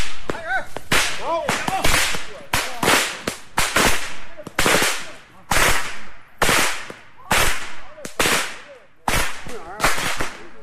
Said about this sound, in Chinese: 所以我猜这个玩鞭子是从满族那边来的。